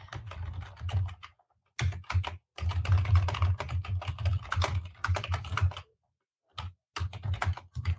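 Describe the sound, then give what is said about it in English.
Computer keyboard typing comes in quick clattering bursts separated by short pauses, the keys tapped rapidly and fairly loudly with no talking. “can't talk and type at the same time.”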